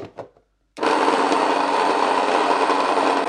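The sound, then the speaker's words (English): Loud, steady grinding whir of a wooden stone mill milling grain into flour, its top stone turning against a fixed bottom stone; after a brief short noise, the grinding starts abruptly and runs continuously and evenly to the end. “It's a wooden mill. It has two stones. One of them is fixed, the bottom one, and the top one goes around.”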